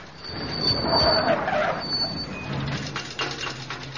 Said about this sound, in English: Sounds like the big end's gone.